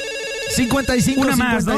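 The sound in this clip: An electronic telephone ringtone signals an incoming call to a live call-in show, its loud, warbling melody repeating in quick cycles.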